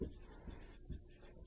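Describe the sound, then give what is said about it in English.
Pen or marker writing during a maths lesson on compound interest: faint, scratchy strokes in a few short bursts separated by brief pauses, with no talk. “So I put 2 here for now for semi-annually, and let me write that up here.”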